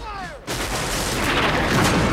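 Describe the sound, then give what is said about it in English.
Musket volley and cannon fire from Confederate soldiers in a Civil War battle effect. A brief falling tone comes first, then a dense, loud, continuous roar of gunfire that holds steady to the end. “A row of Confederate soldiers fire their muskets at the advancing troops, and several of the Unionists crumple to the ground, while another volley of cannon blasts rips through the field.”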